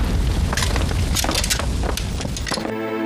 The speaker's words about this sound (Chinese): 夫人房间着火！ 快救火！